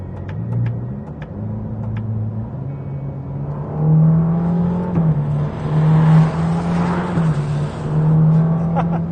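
Ferrari Roma engine driving in sport mode with manual gear selection through its 8-speed dual-clutch gearbox: a steady, low, humming engine note that swells louder from about midway and stays strong to the end.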